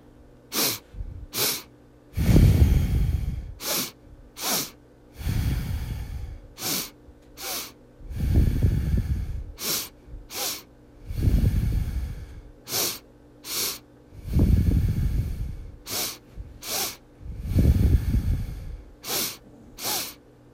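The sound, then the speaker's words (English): Rapid, sharp breaths drawn in and pushed out through the nose during a breathing exercise, repeating as many short puffs in a steady rhythm, broken by several longer, heavier breaths; no talking. “what we're going to do all through the nose is inhale, inhale, exhale”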